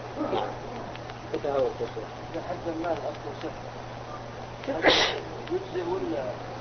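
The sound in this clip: A single sneeze bursts out sharply in the middle of ongoing speech during a religious lesson. It is loud and brief over a low, steady hum.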